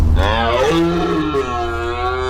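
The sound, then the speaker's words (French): A red deer stag bellows during the rut: one loud, deep, rough-edged roar rich in harmonics, sustained for over two seconds, its pitch stepping upward partway through before holding steady. “C'était le Brame du Cerf.”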